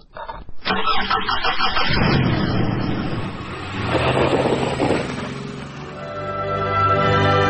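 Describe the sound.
A car engine starts with a sharp burst, then settles into a loud, rough, broad rumble that swells around the middle. It eases into a steadier droning hum toward the end, with no voices.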